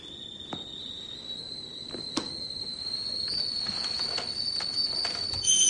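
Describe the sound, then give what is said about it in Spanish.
A kettle whistles in a kitchen: a steady, piercing high tone sounds throughout, slowly swelling, with a second higher tone joining near the end and a few faint clicks underneath. “en la cocina comienza a silbar la tetera. El aviso hace que suelte el libro y se levante de la mecedora.”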